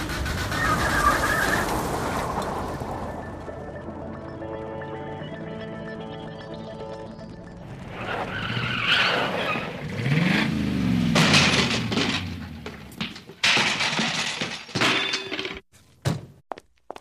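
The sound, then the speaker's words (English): A car skids and crash-lands in a school car park: a steady engine whine gives way to a loud, rough rushing noise, then a few sharp, clattering crash impacts close the sequence. “Crash land in our school car park.”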